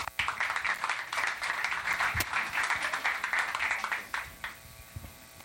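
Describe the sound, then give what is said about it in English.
Audience applause at a B-Sides SF security conference: dense, steady clapping from a crowd that holds at an even level for several seconds, then thins and tapers off toward the end. “let's have another round of applause”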